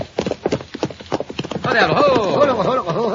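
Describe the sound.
Horse hooves clip-clop in a steady, rapid rhythm as a rider passes, with many distinct hoof strikes at first. Louder overlapping voices then take over, and the hoofbeats continue faintly beneath them.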